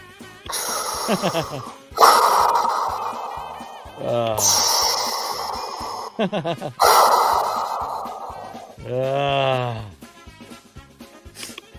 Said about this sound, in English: And then the devil shows up on the screen looking at Joe and breathes deeply.